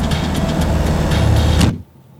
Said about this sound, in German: Laufender Motor, offene Tür. Sie werfen sich auf die Rückbank.